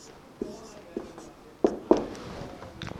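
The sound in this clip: Writing on a board, a few sharp, faint taps and scrapes of the writing tool, spaced irregularly, followed by light scratching near the end.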